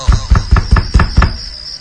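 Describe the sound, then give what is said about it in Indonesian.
Six firm, evenly spaced knocks on a toilet door, loud and low-pitched in a quick steady rhythm, heard alone without voices. “Aku coba panggil lagi sambil mengetuk pintu toilet kedua itu.”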